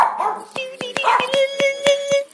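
Dog barking in a quick run of about seven sharp, evenly spaced barks, each a crisp burst over a steady whining tone, fairly loud throughout.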